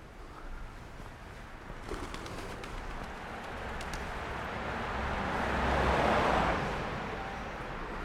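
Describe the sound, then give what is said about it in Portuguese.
Pigeons coo softly at a street corner, their low calls faint amid a steady wash of street noise that swells past the middle and then eases. “As pombas.”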